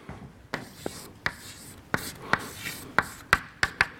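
Writing during a lecture on chemical reaction kinetics: a series of sharp, faint taps and scrapes at irregular intervals, with no voices.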